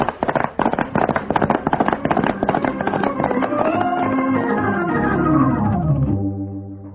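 Gunfire from a pitched battle at a farmhouse crackles in rapid, dense volleys of sharp shots for about four seconds, then thins out and gives way to sustained tones that fade away.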